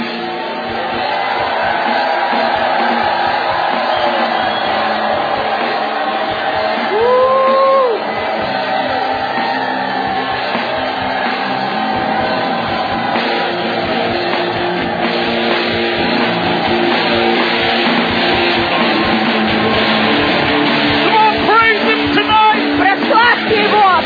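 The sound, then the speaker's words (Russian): An audience at a bilingual English and Russian church service shouts praise: many voices yell and whoop together in a sustained, loud roar that carries through the whole clip without a break. “Come on, lift this name up right now. Мы возвеличиваем твое имя прямо сейчас. Give him a shout of praise. Мы даем тебе крик своей хвалы.”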